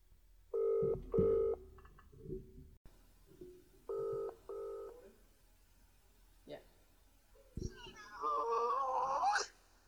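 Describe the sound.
A telephone rings in short double bursts, two pairs separated by a pause of a few seconds, with quieter sounds in between and a busier warbling noise near the end.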